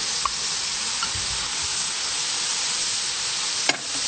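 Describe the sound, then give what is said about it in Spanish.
Onion and bell pepper sizzle steadily in a frying pan as they are stirred, a loud, even hiss broken by a few faint clicks and scrapes. “Mezclamos bien, revolvemos un poco”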